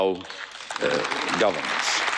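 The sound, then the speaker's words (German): Applause from members of the European Parliament, dense, steady clapping with brief voice fragments heard at the start and around the middle. “So Juncker unter dem Applaus der EU-Parlamentarier.”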